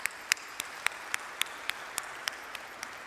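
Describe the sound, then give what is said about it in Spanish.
A church audience applauding at Sunday Mass on the first Sunday of Lent: fairly soft, steady applause with a regular beat of sharper, evenly spaced claps standing out. “primer lugar agradecerles y que nos demos un fuerte aplauso en este momento todos. Nos demos un fuerte aplauso porque hemos asistido a la misa a pesar del diluvio que hemos tenido en todo el día.”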